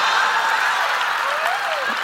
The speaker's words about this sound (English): Guys, please, a round of applause.